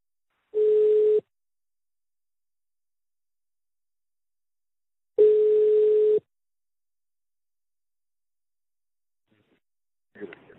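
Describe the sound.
Telephone ringback tones as a call is placed: two steady buzzing tones, the second slightly longer, separated by a long silence, with a faint voice starting just at the end.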